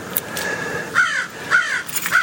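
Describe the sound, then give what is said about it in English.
Crows cawing outside a house, three harsh, evenly spaced caws over steady background noise. “You can hear the birds outside our house.”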